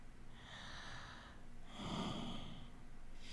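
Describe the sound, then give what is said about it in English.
Quiet, slow breathing: two long, airy breaths with a short pause between them, the second deeper with a slight nasal snort, and a third just beginning at the end. “my breath just tickling across you.”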